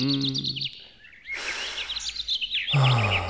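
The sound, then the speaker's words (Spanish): Small bird chirping in quick, high, twittering bursts throughout, with a person's voice calling briefly over it at the start and again at the end. “¡Hey! ¡Pajarito! ¡Aquí!”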